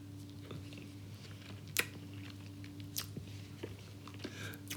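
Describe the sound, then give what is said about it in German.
Faint chewing and biting on a slightly squashed cream lemon tartlet from Italy. A few soft, moist crunchy clicks are spaced over a quiet, steady low hum. “es schmeckt einfach wie so ein Sahne, es ist ein Sahne-Zitronentörtchen irgendwie.”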